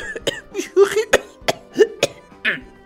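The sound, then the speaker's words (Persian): Harsh, throaty coughing in a comic sketch about hoarding: many rapid, rough coughs and hacks in an uneven run, each a short burst with brief gaps between them. “چون همونجور که مستحضر هستید دارم سرفه میکنم”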